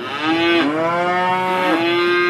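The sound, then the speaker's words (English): Cattle mooing in a cattle tent at a farm show: loud, sustained lowing runs through the whole clip, rich in harmonics, with a couple of brief dips in pitch along the way and no voices. “In the cattle tent, Graham Powell is pampering his prize cows, standing next to them with a bucket to catch their droppings so they don't soil their bedding straw.”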